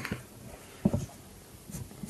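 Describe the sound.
Pen scratching across a character sheet as traits are written down during character creation for a Vampire: The Masquerade tabletop role-playing game, with a few short, faint strokes and one firmer scribble in the middle.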